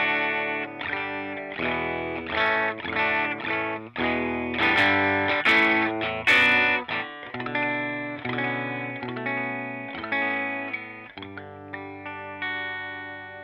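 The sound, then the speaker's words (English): A vintage electric guitar plays a clean tone through a Klon-style J Rocket Archer pedal into a Matchless amp simulation on an HX unit, ringing out a steady run of chords and sustained notes with a shimmering, slightly driven edge. “I actually have this like Klon thing, a J Rocket Archer as my clean tone, and I'm using a matchless sim in the HX thing here.”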